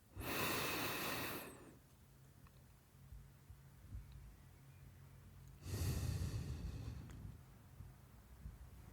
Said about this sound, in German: jetzt sollst du 4 Sekunden einatmen, 4 Sekunden halten und 4 Sekunden ausatmen mit geschlossenen Augen.